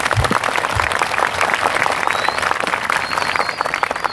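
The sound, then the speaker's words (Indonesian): Audience applause at a religious speech event, with dense, steady clapping from many hands that stays loud and even throughout. “Tepuk tangan untuk NU.”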